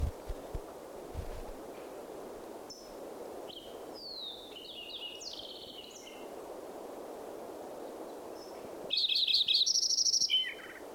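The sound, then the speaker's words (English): Bird song including a Fox Sparrow among other birds: scattered high chirps and short whistled phrases, then a louder, rapid warbling phrase near the end over a faint, steady background hiss. “Fox Sparrow mixed in there.”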